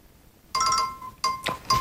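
A phone rings with an incoming call: three short bursts of bright electronic chiming tones, separated by brief gaps, ring out over near silence.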